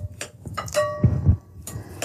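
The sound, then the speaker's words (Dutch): A knife slices red beet into pieces on a board during cooking. A few sharp clicks and knocks mix with a couple of low thuds, and no one talks. “ik ga dat nu zo met een mes fijn snijden”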